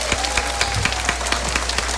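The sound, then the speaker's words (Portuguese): Applause from a church audience at an evening religious gathering, a dense run of many claps at a steady, even level over a constant low hum, with no voices. “Isso, uma salva de palmas, gente.”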